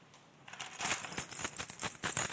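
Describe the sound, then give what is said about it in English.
Keys jangling at a door: many quick metallic clinks and rattles start after a short quiet moment and keep going in an uneven rhythm to the end, bright and fairly loud, with no voices. “Sound of the keys at the door?”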